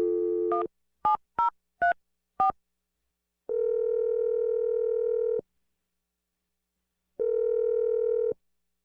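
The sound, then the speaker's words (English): A telephone number being dialed: a short tone and four quick keypad beeps, then two long steady ringing tones separated by a pause. “I'm going to dial the number right now.”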